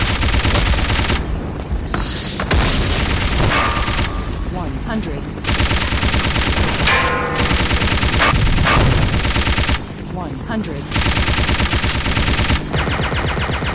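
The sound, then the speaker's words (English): Rapid machine gun fire in a video game rattles out in several long, loud, sustained bursts separated by short gaps, each burst a dense stream of overlapping shots. “Ooh, he's shooting a machine gun at me.”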